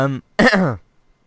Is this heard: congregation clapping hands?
no